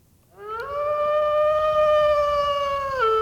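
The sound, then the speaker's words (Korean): A wolf howling as a sound effect: one long, pure, sustained howl that rises at the start, holds a steady pitch for over two seconds, then dips at the end. “자, 어떤 효과음인지 한번 확인해 볼게요. 늑대 울음소리죠.”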